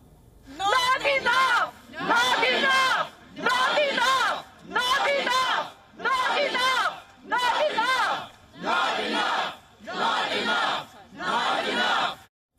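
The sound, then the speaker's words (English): A protest crowd outside the White House over the Russian invasion of Ukraine chants in unison: eight loud, evenly spaced bursts of massed shouting, each lasting over a second, separated by short pauses in a steady rhythm. “These are protests right outside the White House.”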